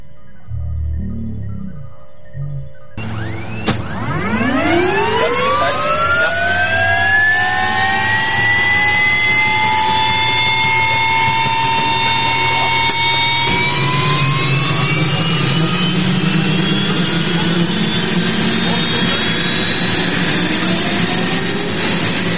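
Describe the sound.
An aircraft engine spools up for takeoff: after a brief low rumble, a whine rises sharply in pitch and then settles into a loud, sustained roar that thickens further midway and carries on to the end.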